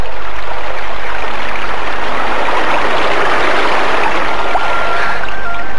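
A small river flowing, heard as a steady, loud rush and gurgle of water that stays constant from start to finish.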